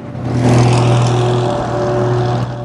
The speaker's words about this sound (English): A VW Beetle behind Jim overtakes him.